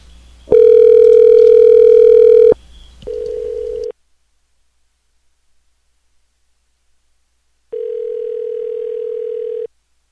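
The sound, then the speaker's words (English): Ringing tone of an outgoing telephone call: steady electronic tones sound in separate bursts with a long silent gap between them. The first is louder and richer than the rest, and no one speaks. “It just says calling and it stops ringing”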